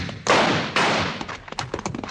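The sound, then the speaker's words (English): Gunshots ring out during a Western holdup over gold-filled saddlebags: two loud, sharp blasts about half a second apart, each trailing off, followed by several faint, quick knocks and taps. “That was a nice shot. But I didn't mean to shoot.”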